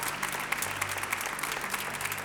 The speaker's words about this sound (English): Can we clap our hands and just give God praise for his presence?